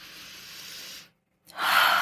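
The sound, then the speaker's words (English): Deep breath through the nose from an aluminum-capsule essential oil inhaler: a long, soft rush of air, a brief pause, then a louder, stronger breath to finish. “Deep inhale through the nose and then exhale through the mouth. And that is a very effective method for inhaling essential oils.”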